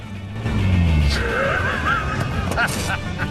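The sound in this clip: Engine drone of a convertible car driving along a country road, a loud, steady hum running throughout with a faint tonal whine riding over it.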